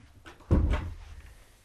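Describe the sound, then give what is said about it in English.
A door is pushed shut with a single dull, low thud. It is brief and fairly soft, and quiet follows. “Would you please close the door?”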